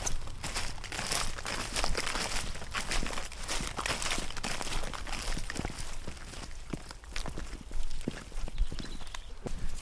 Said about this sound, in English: We're walking across a September sown cover crop with chopped straw residue sitting on the ground